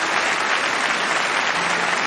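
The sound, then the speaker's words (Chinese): Audience applause honouring a firefighter on a televised programme: a loud, even wash of many hands clapping that holds steady throughout, with no voices above it. “我想此时此刻我们应该响起掌声，向巴特尔的父亲这名优秀的消防员表示敬意。”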